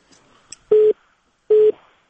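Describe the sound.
Telephone busy signal after a caller's line disconnected during a call-in program: two steady, mid-pitched beeps, evenly spaced and alone, with a few faint clicks before them.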